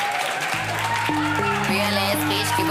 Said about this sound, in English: Ladies and gentlemen, please start the round of applause. Start the round of applause and welcome onto the stage